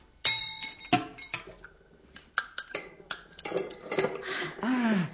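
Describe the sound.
Metal tools, a chisel and a pestle, clink and scrape while prying open the lid of a box: a series of sharp taps and clinks of varying loudness, with grinding scrapes between them and a louder scraping stretch at the end.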